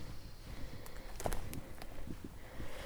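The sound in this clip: Soft, irregular footsteps of someone walking uphill through pine woods with underbrush, faint under a steady outdoor hiss.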